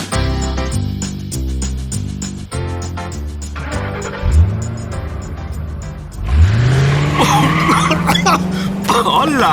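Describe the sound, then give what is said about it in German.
A car driven fast squeals its tires after a stretch of music: two rising screeches, the second long and sustained over a revving engine, loud throughout. “Stella fährt ja einen ganz schön heißen Reifen. Naja, sie hat es eilig.”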